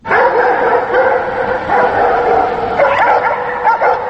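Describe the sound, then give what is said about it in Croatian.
Dogs barking at midnight: a pack of about ten stray dogs in Bosnia and Herzegovina turns on a passerby, a loud continuous tangle of overlapping barks, yips and whimpers with no pause. “Ovako zvuči kada oko ponoći čopor od 10 pasa lutalica zalaje na slučajnog prolaznika.”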